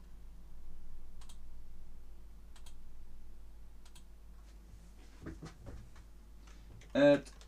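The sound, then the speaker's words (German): Someone types a chat message on a computer keyboard: faint, sparse key clicks over a low steady hum, then a brief louder burst at the end. “Ich schreibe das nochmal in den Chat.”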